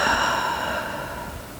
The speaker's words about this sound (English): Take a deep breath in through your nose and exhale it completely through your mouth.